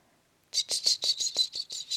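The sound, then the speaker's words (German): Cicadas chirp in a quick, even series of about nine high, buzzing pulses. The calls begin after half a second of near silence and stay fairly faint. “10.000 Zikaden.”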